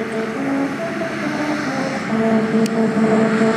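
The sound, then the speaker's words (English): A car drives over a musical road just north of Los Angeles that plays the William Tell Overture. Faint stepped tones trace a short tune beneath a steady, loud rumble of tyres and engine. “And that one plays the William Tell Overture. And it sounds like this when you drive over it.”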